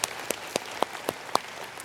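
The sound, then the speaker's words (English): An audience claps hands to welcome online and TV viewers, heard as a faint, steady run of separate claps at an even rhythm. “Will you put your hands together to welcome all of our online TV audience, the men at TOCI?”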